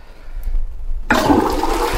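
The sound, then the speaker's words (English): A toilet flushes. After about a second of low hum, a loud rushing gush of water starts suddenly and continues steadily to the end. “Got to flush that away.”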